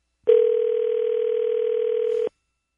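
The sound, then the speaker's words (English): One ring of the ringback tone on an outgoing telephone call: a single steady, low electronic tone that lasts about two seconds, then silence. “Gotta make a personal call if you give me just a moment, please.”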